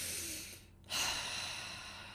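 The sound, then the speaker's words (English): A person takes one deep breath: a soft, airy rush of inhaled air that swells suddenly after a brief quiet moment, then slowly tapers off. No one speaks. “One of the best ways I have found to do this is to just take a deep breath,”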